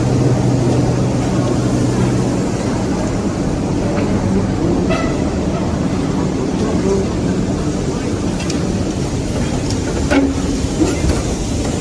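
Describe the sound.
Subway train at a station where buses connect directly with the metro: a loud, continuous rumbling roar with faint metallic squeals now and then, holding steady throughout.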